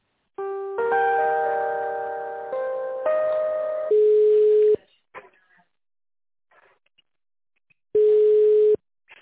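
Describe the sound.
Telephone tones play while a call connects: a short melodic sequence of stepped chime tones, then two long, steady, mid-pitched beeps separated by several seconds of near silence.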